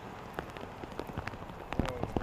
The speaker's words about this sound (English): And it's raining outside, it looks like. It's clearly Washington State by the rain.